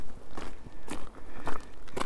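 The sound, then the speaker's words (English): Footsteps walk along a clifftop path on Leskeith Cliffs. The steps are crunchy and gritty, coming in a steady, even rhythm with no talk over them. “I've left Proud Sands behind me. And I'm walking on the top of Leskeith Cliffs.”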